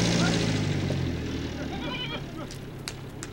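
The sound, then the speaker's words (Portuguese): Goats bleating as they are herded toward a fence, a few wavering, nasal bleats that are loudest at the start and fade, followed by a few sharp clicks near the end. “Eles tangem os bodes para a cerca.”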